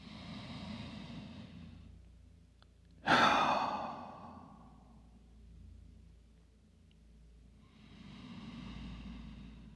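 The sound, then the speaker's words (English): Deep, slow breathing during a yoga flow: a few soft inhales and exhales, with one sudden loud, sighing exhale near the start before the breath settles into quieter, airy rhythm. “And just let those deep, luxurious breaths flow in and out for a few moments here.”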